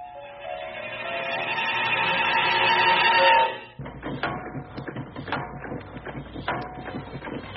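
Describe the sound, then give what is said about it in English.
A magic mill in a spoken folktale grinds out bread, soup, cake and milk. A humming mechanical drone swells steadily louder, then breaks off abruptly into busy clattering and ticking that continues unevenly to the end. “Quietly he said, "Little mill, hear my plea. Grind out something nice for me. Grind out some bread and soup and cake and milk."”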